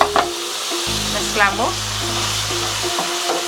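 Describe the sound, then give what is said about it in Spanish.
Tomato and chopped garlic fry in butter and oil, a loud, steady sizzle with bursts of spattering, a low hum running underneath. “y las vamos a llevar a cocinar. Mantequilla, aceite, vamos a poner tomate y ajo picado, suficiente.”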